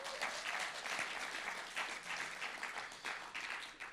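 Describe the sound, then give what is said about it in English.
An audience applauds for a pastor with steady, fairly faint clapping that holds an even texture throughout. “Please put your hands together again for Pastor Nigel.”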